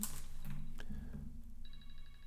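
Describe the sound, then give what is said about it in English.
A phone ringing: electronic, tonal ringtone notes that come in partway through over a low steady hum, with no talk. “My phone was ringing there, so there was obviously an edit.”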